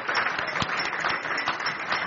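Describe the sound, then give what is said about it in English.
A church audience applauds a newly married couple, a steady, even patter of many hands clapping at a moderate level throughout, with no talk over it. “We want to say, let's go ahead and applaud them.”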